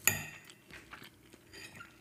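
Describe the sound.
Cutlery clinks and scrapes on plates while homemade apple cake is eaten: one bright metallic clink opens, then lighter taps and scraping follow at an irregular pace, with no talking.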